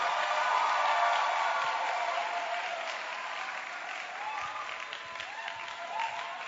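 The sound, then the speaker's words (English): A church audience applauding during a morning service as someone comes up to give a testimony: dense, steady clapping from many hands, easing off slightly toward the end. “Keep clapping.”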